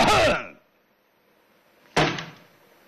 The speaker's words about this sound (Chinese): 李月呀咳嗽了一声